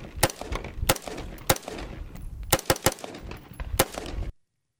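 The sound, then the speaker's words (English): Gunfire from a ghost gun AR-15 rifle. Loud, sharp shots come in quick, irregular bursts for about four seconds, then stop abruptly into silence. “Again, regular AR-15. And here, look for the crucial differences. Ghost gun AR-15.”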